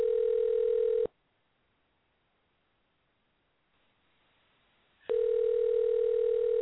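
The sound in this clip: A telephone ringback tone sounds as a call rings through toward voicemail: two steady, even-pitched rings, the first cut off at the start and the second about four seconds later after a long silent gap.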